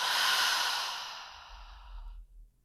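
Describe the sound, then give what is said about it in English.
A deep breath exhaled through an open mouth, a long breathy whoosh that starts strong and fades away over about two seconds, with no voices. “Breathe in a fresh new breath through your nose. Open mouth, exhale.”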